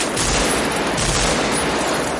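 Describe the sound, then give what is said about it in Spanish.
Gunfire from several shooters hits a car and breaks the driver's window in a 1995 crime thriller. It comes as a loud, dense, continuous burst of rapid shots with no pauses. “Vincent, Casals y Draper disparan y rompen la ventanilla del conductor.”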